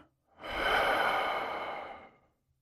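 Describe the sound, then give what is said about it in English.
A deep breath drawn in and let out during a calming bedtime reading. One long, smooth, airy rush swells and then slowly eases off, alone with no talk. “Now, take a deep breath. Let it out.”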